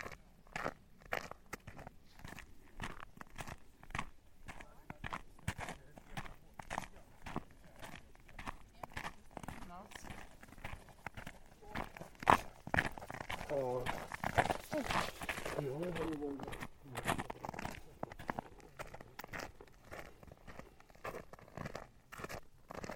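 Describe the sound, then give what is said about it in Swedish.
Footsteps crunch steadily along a straight outdoor path on a winter walk, many even steps in a continuous rhythm from start to finish. “Nu går jag längs en raksträcka som är...”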